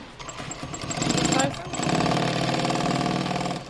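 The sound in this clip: A sewing machine stitches a coat hood to the outer shell, running with a steady, rapid mechanical whir that breaks off briefly and resumes while a voice talks over it.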